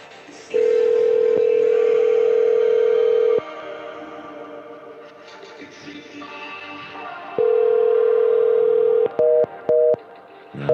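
A telephone dialing out: two long, steady mid-pitched tones separated by a quieter gap, then a quick run of short beeps near the end.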